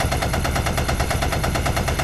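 Rapid automatic gunfire from firearms at a shooting range: a loud, sustained stream of sharp shots in a fast, even rhythm, with no pause and no voices.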